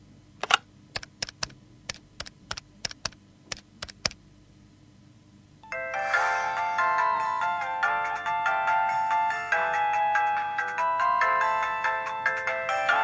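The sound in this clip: A mobile phone ringtone plays as a steady, bright, melodic ring through the second half. Before it comes a quick run of many sharp, evenly spaced taps like keypresses.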